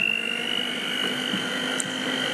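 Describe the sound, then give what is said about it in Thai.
An electric mixer runs at its lowest setting, speed one, giving a steady, even motor hum with a thin whine above it that stays constant throughout. “ใช้เครื่องตีนะอย่าลืมนะคะอย่างที่บอกไว้วางลงก่อนนะวางลงก่อนแล้วก็เปิดสปีดที่หนึ่ง”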